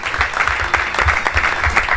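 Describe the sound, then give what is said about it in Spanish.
Applause for contestants in a trivia quiz final, a short burst of many hands clapping in a dense, fairly loud patter with no talk over it. “Un aplauso para ellos. Para ellos. Muy bien.”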